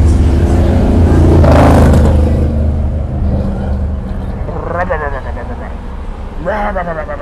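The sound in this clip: A person's voice imitates a motorcycle with a loud, sustained buzzing engine rumble that swells and then eases off, followed by brief voiced sounds.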